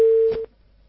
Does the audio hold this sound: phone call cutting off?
yes